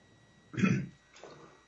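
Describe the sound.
A short coughing fit: two rough, breathy bursts, the first louder and longer, the second fainter, with no talk over them.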